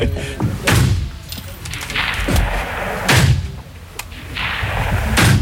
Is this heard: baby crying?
no